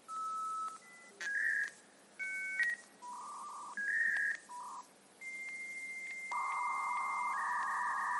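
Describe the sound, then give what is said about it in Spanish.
Telephone dialing tones ring out on a radio show's call-in phone lines during a contest: a series of steady electronic beeps at shifting pitches, clear and alone with no talk. “Es la serenata del suspiro de Estocino y vamos a poner a trabajar a nuestras 25 líneas telefónicas para ver cuál es la llamada ganadora.”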